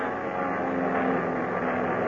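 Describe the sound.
A propeller airplane climbs with a dense, steady droning roar that stays loud and even throughout, with no other sounds standing out.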